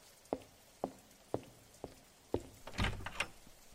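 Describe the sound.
A door being knocked and opened on a rainy night: five evenly spaced knocks, then a louder cluster of rattling and scraping as the door opens, over a faint steady hiss.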